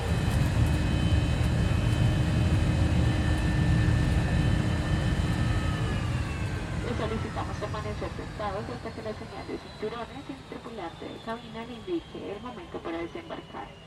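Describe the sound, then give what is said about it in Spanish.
Jet engine roar inside a passenger airliner as the crew prepares for takeoff: a loud, steady drone with whining tones that shift partway through, and people talking over the later part. “Tripulación, próximos a despegar.”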